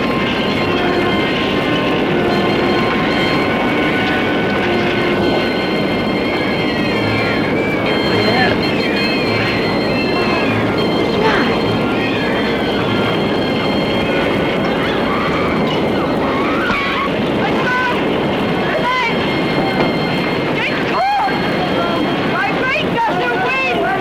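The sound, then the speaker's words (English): Firestorm winds exceeding 100 miles an hour after a nuclear blast: a loud, continuous roaring rush that never lets up, with voices at times. “caused by both the heat flash and the blast wave upsetting stoves and open furnaces is sucking in ground-level winds at speeds exceeding 100 miles an hour. This is the wind of a firestorm.”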